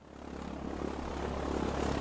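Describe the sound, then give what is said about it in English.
Seaplane engine and propeller droning in flight, a steady, buzzing roar with a low throbbing hum underneath that swells gently over the first half and then holds level. “I was going home in Hillary's seaplane. Well, she wouldn't be using it.”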